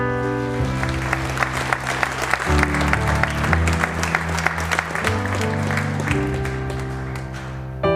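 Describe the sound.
Warm applause in a church as a guest speaker is welcomed: steady, dense clapping from the audience, with sustained instrumental chords playing underneath throughout.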